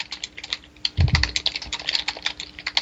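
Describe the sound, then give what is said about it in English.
Typing on a computer keyboard during an online voice call, many quick keystrokes clattering in an uneven rhythm, with a few heavier key hits partway through. No one talks over it. “what are you typing?”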